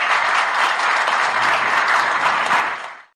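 Standing ovation in the Yerevan city council after a new mayor's election: dense, steady applause holds strong for about three seconds, then fades out quickly.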